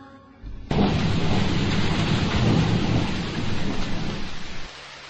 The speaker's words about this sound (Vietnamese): thì bỗng nhiên có một trận mưa rào thật to